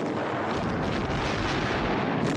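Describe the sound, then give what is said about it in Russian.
Artillery shells burst behind trenches in a war film as a dense, continuous roaring barrage, loud and unbroken, with no distinct gaps between blasts and no voices. “Танки и пехота продолжают приближаться, не сбавляя скорости. Выпущенные снаряды ложатся за окопами.”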